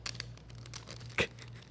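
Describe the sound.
Faint tearing and crinkling as a sealed package with a shiny sticker, holding a passport booklet, is ripped open, with a short, louder rip near the end.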